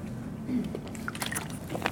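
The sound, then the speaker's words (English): A person takes a drink of water: faint liquid sloshing and small swallowing gulps and drips, soft and irregular against a quiet background. “I have to take a drink of water,”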